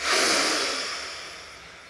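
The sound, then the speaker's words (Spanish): One deep breath during a stretching exercise. The breath is a long, airy rush that starts strong and slowly fades over about two seconds. “Exhala. Inhala profundo.”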